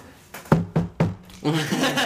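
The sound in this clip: Knocking on a reinforced steel studio door: three firm, evenly spaced raps, followed by someone talking.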